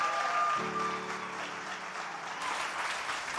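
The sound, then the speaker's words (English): A church audience applauds and cheers for its lead pastor with a quiet, steady wash of clapping that holds evenly. A brief low tonal hum sits underneath near the start. “Can you do me a favor and show some love and make some noise for Propel's lead pastor, Pastor Nick Newman?”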